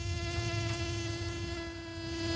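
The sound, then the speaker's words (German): Wasps buzz in a steady, whining drone that holds constant throughout, fairly faint and with no voices. “Ja, nur schon, wenn wir so den Ton hören, oder? Die Wespis.”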